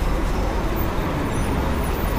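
Steady low road rumble from an MTA city bus in street traffic, a dense, even engine and tyre roar with no clear separate events and no voices.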